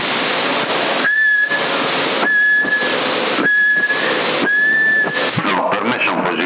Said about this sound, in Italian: Prova a fischia.